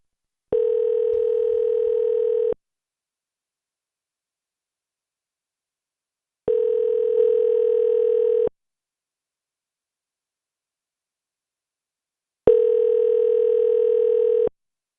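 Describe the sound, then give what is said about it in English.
A hotel phone rings after the call is transferred to a guest room, heard from the caller's side as a steady electronic ringback tone. It sounds three times, each burst about two seconds long with roughly four seconds of silence between, and no talk. “I'll just dial a random number. Let's try and call somebody in a room. 1, 2, 3. Transferring to the guest.”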